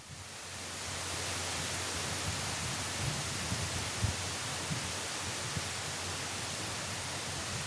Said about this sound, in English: There's like a rainstorm, one of these, you know, mid-Pacific warm rainstorms just pelting down on the surface.